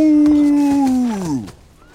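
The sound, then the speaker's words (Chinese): A long drawn-out call from a reindeer pulling a sleigh: a single loud tonal cry that holds a steady pitch, then slides downward and fades out. “当驯鹿拉着雪橇长啸一声停在圣诞老人的面前时”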